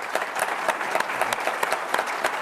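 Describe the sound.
Audience applause breaks out at a talk, a dense, steady patter of many hands clapping at moderate loudness with no pause from start to finish.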